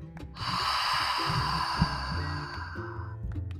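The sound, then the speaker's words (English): A long breath let out through open lips during a guided movement and breathing exercise. The breathy rush is steady, lasts about two and a half seconds, and eases off at the end. “breathe in through your nose. Open up your lips and breathe all the way out.”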